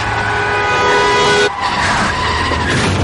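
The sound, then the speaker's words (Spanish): Tires skidding as a drunk driver swerves a car off the road, a loud continuous screech with harsh hiss that drops sharply midway and then carries on rougher to the end, with no voices. “Conduciendo borracho, pega un volantazo y se sale de la carretera.”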